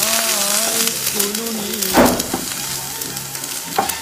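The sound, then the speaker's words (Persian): Apples frying in a pan and stirred with a wooden stick: constant crackling sizzle with a few louder scraping stirs rising above it. “چوبی رو برمیداریم میفتیم به جون سیبا.”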